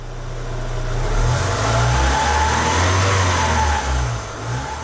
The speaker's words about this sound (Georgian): გაიხსენებთ გზებზე, მდინარეში, ტალახში, უდაბნოში და კლდეზე ნელა მოძრავ ავტომობილებს.